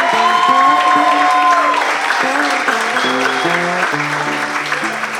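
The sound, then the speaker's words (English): An audience applauds the kitchen and wait staff at a cafe. The clapping is loud and full, with a stepping melody playing beneath it, and it eases slightly toward the end. “He asks that you give it up for the kitchen and wait staff.”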